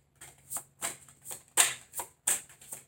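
Tarot cards being shuffled, a quick run of crisp papery riffles and flicks in a loose rhythm, with brief pauses between bursts.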